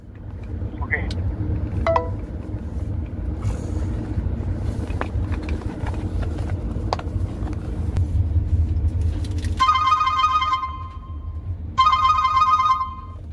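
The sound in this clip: A telephone rings in two bright, buzzing bursts near the end, each lasting about a second, over a steady low rumble that runs through the whole clip.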